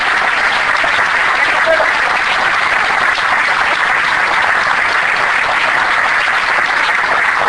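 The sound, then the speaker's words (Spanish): A conference audience applauds with loud, dense, continuous clapping that stays even from start to finish, with no breaks or swells. “le tengo que pedir disculpas, porque nunca me sacan, nunca se pide un aplauso en la conferencia.”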